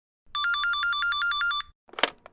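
A telephone rings with a bright electronic trill, a rapid run of even high-pitched pulses for about a second, then stops and is followed by a short, sharp clatter.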